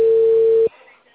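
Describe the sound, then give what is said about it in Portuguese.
Steady telephone tone after a dropped phone call: a single unbroken mid-pitched hum that cuts off abruptly after about two-thirds of a second, leaving only a faint hiss. “Oi. A ligação caiu? Caiu.”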